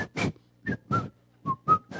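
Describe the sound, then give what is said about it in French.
A person whistles seven brief notes in short bursts separated by pauses, with the pitch shifting from note to note. “Et puis tu commences à siffler.”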